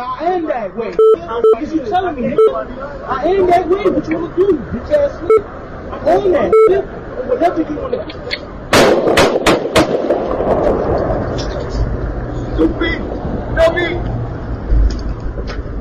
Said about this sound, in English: You're about to hear right now on the radio a man shot and then literally dying.